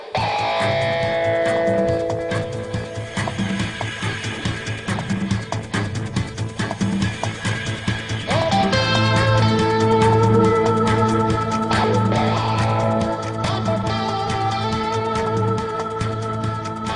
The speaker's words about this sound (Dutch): Dit was de intro-muziek voor de Formule 1. En dit was gedaan en dan kon de race gaan beginnen.